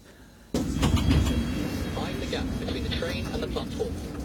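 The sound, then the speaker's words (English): Loud rumbling roar of a London Underground Circle Line train at a station. It starts abruptly after a short quiet moment and holds steady with a faint voice beneath it. “This is Farringdon. This is Circle Line train via Tower Hill and Liverpool Street.”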